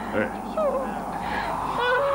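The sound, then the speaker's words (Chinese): A young monk cries in wavering, high sobbing wails that rise and fall over a steady background hiss. “别哭了，小和尚， 吃吧吃吧啊， 别哭。”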